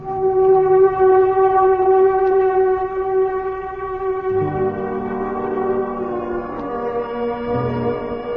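Air raid warning sirens and horns sound together in loud, sustained, steady tones that layer into a droning chord, with the mix of pitches shifting partway through.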